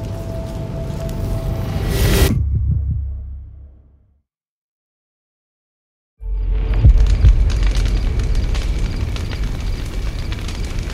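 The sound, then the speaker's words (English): Fire burning in a dug pit gives a loud, dense crackling roar that fades away into about two seconds of silence, then returns abruptly at full strength and holds steady to the end. “Good thinking to dig a pit for the fire. Easier to bury the ashes.”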